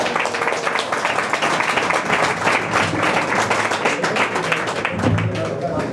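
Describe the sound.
An audience gives strong applause to welcome guests at an afternoon live event, a dense, steady wash of clapping that carries on without a break from start to finish.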